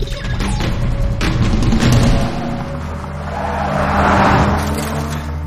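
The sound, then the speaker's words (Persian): A car driven fast and erratically gives a loud, steady engine roar with broad rumbling noise that carries throughout and swells again toward the end, with no voices. “ببینم چرا مثل دیوونه ها رانندگی میکنی.”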